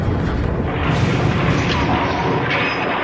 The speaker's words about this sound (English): The guild ship is firing on us. Our shields are holding.